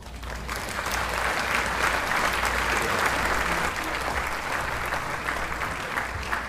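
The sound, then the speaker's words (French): Audience applause for contestants at a radio quiz game show: a dense, steady wash of clapping that swells in over the first half-second and then holds loud and even throughout, with no voices. “Acclamez-les bien fort.”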